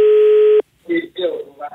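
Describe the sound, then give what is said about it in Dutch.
A telephone ringing tone from an international call placed to a young Hong Kong start-up company: one steady, loud, mid-pitched tone lasting just over half a second, then silence before a man's voice begins speaking. “We hebben eens geprobeerd te bellen met deze bevindingen naar dat bedrijf.”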